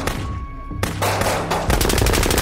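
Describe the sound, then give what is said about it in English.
A volley of gunshots: loud, sharp bursts that start spaced apart and then pound in a dense, rapid string toward the end. “A synchronized volley of shots erupted, each bullet glowing faintly as it left the barrel.”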